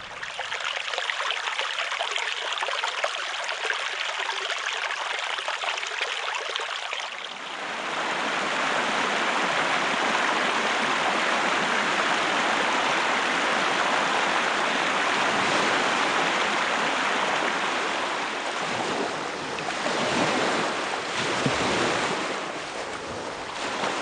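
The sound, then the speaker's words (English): Steady rushing flowing water, a dense continuous hiss and wash. It is softer and thinner for the first several seconds, then swells louder and fuller and holds with slight surges, with no voices. “Water sounds.”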